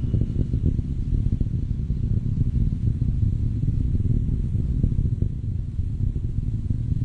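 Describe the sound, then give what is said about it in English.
A rocket's main engines throttling back up to full thrust during ascent, with five solid rocket boosters near burnout. The low, steady roar and rumble stays at an even loudness throughout, with no voices. “Vehicle is starting back up to full thrust.”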